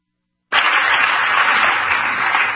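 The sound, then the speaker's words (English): Audience applause breaks out suddenly after a half-second of silence and continues as a dense, steady wash of clapping at an even level, with no talk over it. “even with this liberal audience in there, she still is getting the applause”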